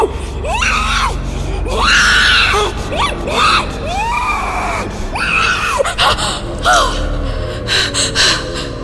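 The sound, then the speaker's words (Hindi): A woman screams herself awake after a wet towel is laid on her face, giving several strained, wavering cries and gasps in loud bursts, with a low rumble underneath. “उन्होंने गीला towel Sonam के चेहरे पे रखा ही था कि सोनम चीखते हुए उठी”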